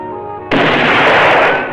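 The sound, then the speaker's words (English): A pistol fires at close range at a sheet of metal in a disused mine shaft, the bullet glancing off the metal. A quiet tonal passage gives way to one sudden, loud crack, followed by a dense noisy tail that slowly fades. “sits in a disused mine shaft, pointing his pistol close range at a sheet of metal. The bullet glances off the metal, leaving a dent. He aims again.”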